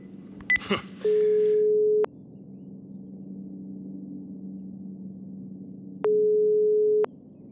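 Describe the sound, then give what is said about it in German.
A telephone is dialed with a few quick keypad tones and clicks, then a steady line tone sounds twice, each about a second long with a long pause between, over a low background hum. “Und zur Feier des Tages werde ich Ruth anrufen.”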